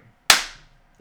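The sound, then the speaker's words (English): A single sharp hand clap stands in for a high five across a table. It cracks loudly and decays quickly, with brief talk at the start and end. “You just clapped because you didn't want to reach over the table.”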